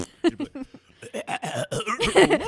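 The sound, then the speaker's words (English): A voice imitates a fart with a string of sputtering, throaty vocal bursts, uneven in rhythm and fairly loud, the sound growing longer and rougher toward the end. “What if a fart sounded like this? You should do that, but just never end it.”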